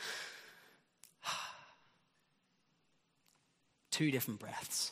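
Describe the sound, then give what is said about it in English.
Two contrasting human breaths: a long, slow, breathy exhale that fades out, then a short, sharp puff of breath. After a quiet pause, a louder voice begins. “Two different breaths.”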